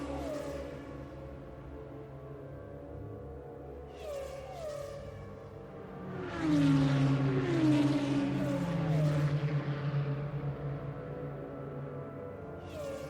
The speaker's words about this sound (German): Noch einmal auf Gas. Die wird im Formel 1 wahrscheinlich im vierten Gang.